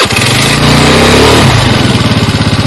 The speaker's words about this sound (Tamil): சீக்கிரமா வண்டி ஸ்டார்ட் பண்ணுங்க. சரி, ஸ்டார்ட் பண்றேன்.